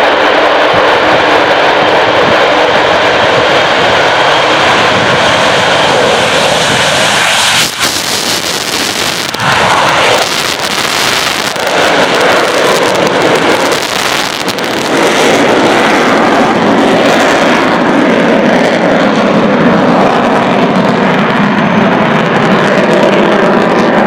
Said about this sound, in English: So here she is. Enjoy the fabulous, fantastic Avro Vulcan.